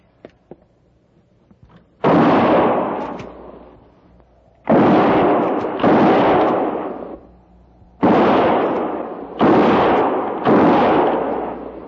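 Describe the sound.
Six loud gunshots ring out between the trees at irregular intervals, each a sharp blast followed by a long, fading tail. No voices are heard.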